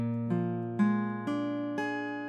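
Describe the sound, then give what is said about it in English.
A B-flat 7 sharp 9 chord on guitar is picked note by note in several evenly spaced plucks, each adding to a sustained, ringing chord that carries to the end. “But a B-flat 7 sharp 9 chord sounds like this.”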